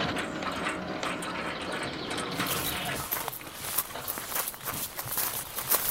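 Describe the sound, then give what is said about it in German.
A gate to a grand house opens with continuous mechanical grinding, rattling and small ratchet-like clicks, fairly faint and steady throughout. “Ah, das Tor geht auf. Man hat uns bemerkt.”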